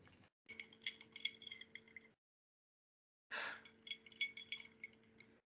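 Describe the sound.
A ready-to-drink cocktail is stirred and swirled in a glass, making two short runs of very faint, light clinking and rattling separated by a silent pause.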